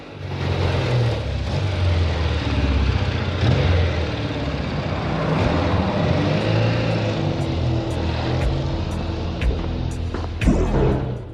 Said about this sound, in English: As Noddy drives down the road, he downshifts and overtakes a couple of cars. He looks pleased with the performance of the bike.